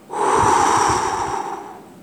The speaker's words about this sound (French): Du bout des doigts, la fillette attrape une fleur à peine éclose et la serre dans sa paume. Puis, elle souffle fort, très fort,